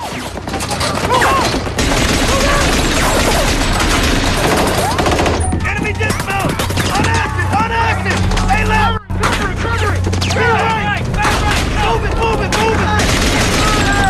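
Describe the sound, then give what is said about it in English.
Machine gun fire from a jeep-mounted gun during a night firefight with insurgents, with rapid, dense bursts of loud shots running almost without pause, mixed with heavier booming gunfire. “The captain returns fire with a machine gun.”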